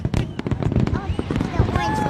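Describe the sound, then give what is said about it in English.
Fireworks bursting at an Independence Day display: a quick run of sharp pops and crackles mixed with crowd voices and chatter. “What do you think of the fireworks?”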